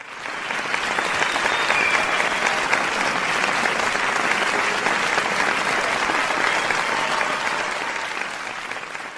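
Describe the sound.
Loud, sustained applause from a conference audience after a scientific talk, a dense even clatter of many hands that swells, holds steady for several seconds and tapers slightly at the end.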